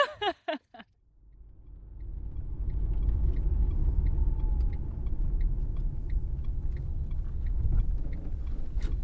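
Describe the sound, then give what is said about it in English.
A car driving across the Exmoor moors near the Somerset–Devon border. A brief voice at the start gives way to a continuous low engine and road rumble that holds steady throughout. “So we're just driving across Exmoor, getting towards the Somerset-Devon border”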